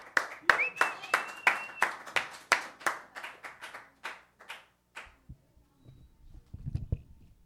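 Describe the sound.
Audience applause welcomes a speaker to the microphone at an evening event of music and poetry, many sharp, distinct claps that gradually thin out and stop partway through, leaving quieter faint sounds.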